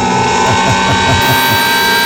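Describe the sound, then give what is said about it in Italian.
A studio prize wheel spins during a game segment, giving a run of rhythmic low ticks and thumps over a steady tonal hum. “A questo punto, in questo programma, cosa succede regolarmente? Giriamo la ruota.”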